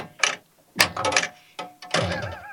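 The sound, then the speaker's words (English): A Gorgar pinball machine, played with its glass removed, makes loud mechanical clatter. Rattling, clacking bursts arrive in a few clusters with short quiet gaps between them. “I like it without this glass. Oh, yeah. It's loud. Actually feels like the machine's not working. Wow. The speed of Gorgar.”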